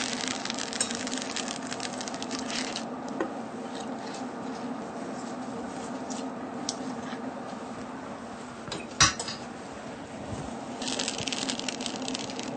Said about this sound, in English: Just add all of the gailan all at once.